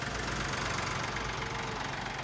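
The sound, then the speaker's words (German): A tractor engine idles with a steady, low, throbbing rumble and faint knocking, holding the same level throughout without voices. “Bist du schon hier mit dem Trecker? Ja, ich bin mit dem Trecker.”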